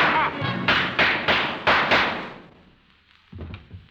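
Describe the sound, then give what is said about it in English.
Gunshot sound effects in a radio drama: several heavy, booming bangs in quick succession, each with a short decay. After a pause a voice briefly speaks. “Miss Crosby, I hear some shot. It sounds like...”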